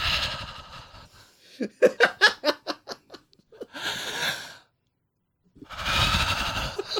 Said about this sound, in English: I can hear breathing. Who's breathing?